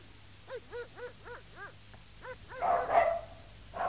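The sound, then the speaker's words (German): Dogs barking: a quick run of five evenly spaced, moderately loud barks, then a denser, noisier burst of barking and one last bark near the end. “Was wollen die Hunde?”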